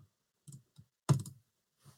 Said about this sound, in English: Double click on the top.